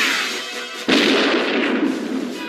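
Gunfire: one sharp, loud shot bursts out just under a second in, breaking a steady hiss and trailing off in a long rumbling decay.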